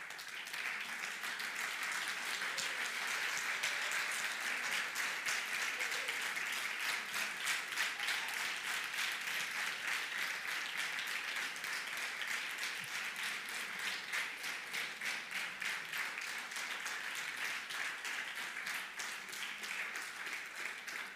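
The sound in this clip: A church audience applauds people who have confessed their faith, a steady, even wash of many hands clapping that carries on without a break.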